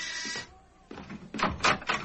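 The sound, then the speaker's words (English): A door is opened in a radio drama, with a few clattering, rattling bursts of latch and hinge noise that grow louder toward the end. “I'll answer the door, Olga.”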